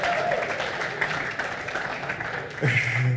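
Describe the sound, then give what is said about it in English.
A church audience applauding at a morning service, giving a steady, moderately loud patter of clapping hands with voices mixed in and a brief vocal sound near the end. “Please, can we put our hands together for our beautiful lady.”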